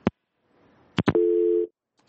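A telephone busy tone after a radio caller's line drops: a few sharp clicks, then one steady, mid-pitched beep about half a second long.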